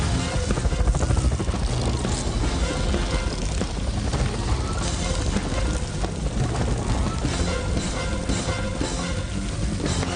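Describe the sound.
An aircraft taking off gives a loud, continuous, dense engine roar that holds steady throughout with no break.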